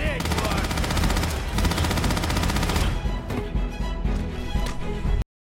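Automatic gunfire from a gun in a video game: a dense, rapid machine-gun rattle that keeps up for about five seconds at high volume before cutting off abruptly.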